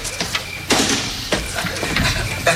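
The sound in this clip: A door opened for a late visitor: a few short, noisy clunks and scraping bursts of the latch and door, spaced unevenly.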